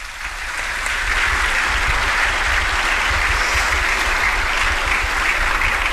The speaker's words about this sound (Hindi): एक बार जोरदार तालियां